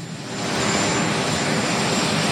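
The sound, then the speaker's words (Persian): Marine One, the presidential helicopter, at a joint base: a loud, steady roar of engine and rotor noise that builds over the first half second, then holds at a constant level with a faint high whine. “تصاویر زنده رو میبینید از مارین وان هلیکوپتر رئیس جمهور که او رو به پایگاه مشترک امروز آورده”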